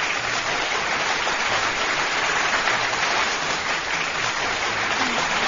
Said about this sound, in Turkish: Menekşe Gülay kalemiyle kocaman alkış bir daha gönderiyorum